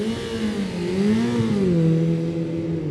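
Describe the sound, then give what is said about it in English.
A racing motorcycle with a dry clutch, on a mountain road-racing course. The engine drones loud and steady, its pitch wavering up and down, then settling lower toward the end. “Listen to that dray clutch on that bike. That's what that rattling noise is Lee's just picked up there.”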